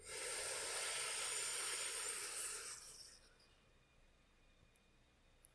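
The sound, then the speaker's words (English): A long, deep breath drawn in: a steady airy hiss that holds for a few seconds, then fades to near silence. “Go ahead and take another deep breath in.”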